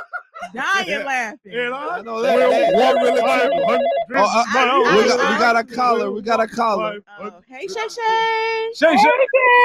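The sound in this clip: A phone ringtone signals an incoming call, its bright, repeating melodic tones mixed with lively voices and chatter throughout.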